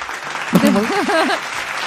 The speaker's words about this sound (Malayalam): ഒരു ക്ലാപ്പ് കൊടുക്കട്ടെ കേട്ടോ.